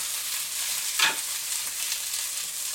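Vegetables cut into small pieces sizzle steadily in a frying pan, and one brief scraping stir stands out early on. There is no talking.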